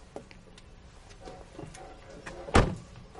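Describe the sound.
Faint shuffling and small knocks lead up to one sharp, solid thud as a car door is shut by someone getting out, followed by quiet.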